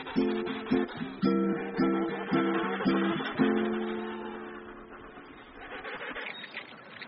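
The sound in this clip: Rockhopper penguin colony calling, with harsh, braying, pulsed cries repeating in a quick rhythm before a longer drawn-out call trails off and fainter calls continue.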